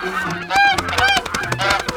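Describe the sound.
Sacred geese honking, several harsh, nasal calls in quick succession, loud and alone, some overlapping one another.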